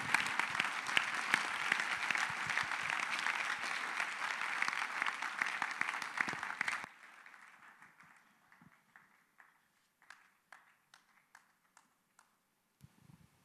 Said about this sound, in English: Clap your hands for the Lord. Free. Clap your hands for the Lord.